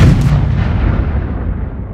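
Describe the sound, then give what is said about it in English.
Bomb explosion sound effect: one loud, deep blast with a sharp onset that fades into a long, low rumble. “Let's drop some bombs.”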